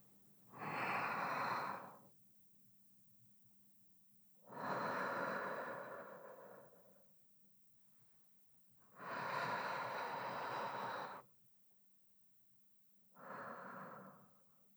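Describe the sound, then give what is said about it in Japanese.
Slow, deep relaxation breathing, with four long, breathy exhales separated by quiet pauses, soft and unhurried with no talking. “深呼吸するときはね、細く長く息を吐き出すようにするといいんだって。”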